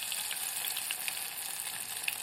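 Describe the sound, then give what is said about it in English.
Battered carrot and courgette pieces fry in a saucepan holding about an inch of oil, giving a steady, fairly faint crackling sizzle dotted with small pops and no talk. “We've got a saucepan with an inch or so of oil in it, frying”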